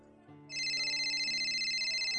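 A phone rings with an incoming call from the boss, a bright electronic ringtone that starts after a brief quiet moment and holds as a loud, steady high tone with a slight pulse.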